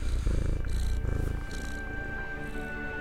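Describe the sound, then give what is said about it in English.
A small creature purring softly like a cat, a low, continuous rumbling purr with faint rhythmic pulses, steady and gentle throughout. “It purrs softly, not unlike a cat, and crawls up Atlas's arm.”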